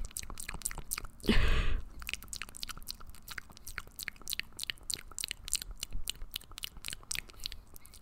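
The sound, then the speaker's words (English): Wet mouth sounds like eating with the mouth open: rapid clicking and smacking, many small snaps over a soft hiss, with a louder breathy, crunchy burst early on. No talk. “I don't really understand how people make those like calming mouth sounds. I feel like when I make them, they like, it sounds like I'm like eating food with my mouth open.”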